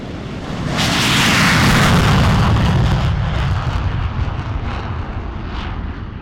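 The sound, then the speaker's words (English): Military fighter jets (F-22, F-16, F-15 and A-10) roar on an air force base runway at Eielson; a loud, broad jet-engine rumble swells quickly, holds, then slowly eases while staying strong. “This week, F-22, F-16, F-15, and A-10 jets are lining up for takeoff.”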